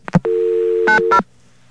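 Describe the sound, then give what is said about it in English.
A landline clicks and a steady dial tone hums, then two short touch-tone beeps cut in as a number is dialed before the line goes quiet. “Whoops. Dialed the wrong number.”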